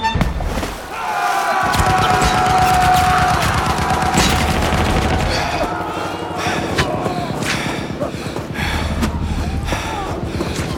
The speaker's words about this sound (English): Looks like we got a gunner's nest. And about 10 more soldiers opening fire on us.